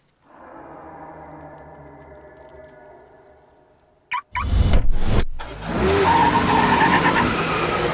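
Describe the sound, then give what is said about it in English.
A Skoda car idles with a low, steady engine hum, then a sharp knock as it is put into gear. The engine roars loudly as the car speeds away, with screeching tire squeal. “They slam the Skoda into gear and speed to a crossroad.”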